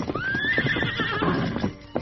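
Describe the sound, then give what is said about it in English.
A wild horse neighs in a high whinny that rises and wavers, as quick clip-clopping hoofbeats pound along beneath it during a chase, the steady beats continuing after the call fades. “though the wild horse was fast, Silver was faster and carried his master close to the speeding animal”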